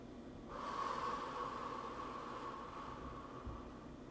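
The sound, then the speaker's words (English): A deep breath drawn in through the nose and let out through the mouth: after a short quiet start, one long, soft, airy rush of breath holds steady for several seconds. “A deep breath in through our nose and exhale out of the mouth.”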